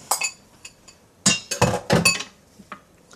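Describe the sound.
Utensils clink against a bowl as a colourful vegetable dish is mixed, giving a few sharp, irregular clinks and short bursts of rattling separated by brief quiet gaps.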